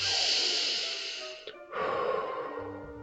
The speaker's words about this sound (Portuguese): Inspira e expira.